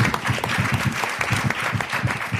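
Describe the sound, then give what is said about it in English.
Audience applause at a civic talk about a city council and its new mayor. A fairly loud, steady run of many quick claps, with no voices clearly heard. “That deserves some claps.”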